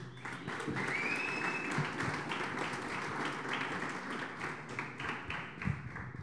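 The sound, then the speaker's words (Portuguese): Congregation applauding in church: dense, steady clapping from many hands that stays loud and even for the whole stretch, without a clear break. “Can we give a hand? Amém. Será que a gente pode bater palma?”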